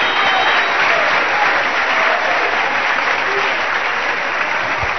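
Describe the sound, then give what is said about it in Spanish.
Loud, sustained applause from an audience during an evangelical church service, a dense continuous wash of many hands clapping at once with no single claps standing out, steady in level for the whole stretch. “Fuerte el aplauso, hermano.”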